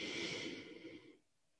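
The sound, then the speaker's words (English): A slow, deep breath heard as one soft, airy exhale that hisses steadily for about a second and then fades away. “Breathe in. Blow it out. One more time. Deep breath in.”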